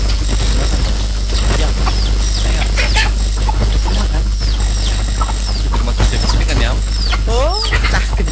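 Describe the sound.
Chickens cluck and squawk in short, irregular bursts throughout, set against a steady low background hum and broad noise.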